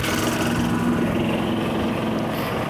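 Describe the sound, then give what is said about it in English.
Golf carts drive by on a golf course in the morning, a steady low motor hum with a faint whine that stays fairly even throughout. “Got golf carts driving by. It's so beautiful walking on the golf course.”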